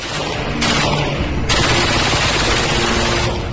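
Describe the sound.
Dense, loud machine-gun fire from a MAG in a Bedouin village in the Upper Galilee, in a context of criminal shootings: a continuous rattle of rapid shots that runs the whole clip with no clear gaps and no talk.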